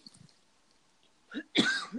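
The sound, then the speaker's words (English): A few short, dry coughs from a person clearing something caught in the throat: a soft first cough, then a louder, raspy burst and a shorter one right after, with quiet breathing before them. “Are you coughing to tell me to stop being frustrating? No, I think it's just something in my throat.”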